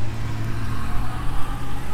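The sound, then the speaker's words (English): A pickup truck passes close by, producing a loud, steady low engine rumble with a broad road-noise wash that swells slightly and stays continuous throughout. “I crossed in front of that truck and then he came around and turned left and went along our right side. A truck. I assume it was a pickup truck.”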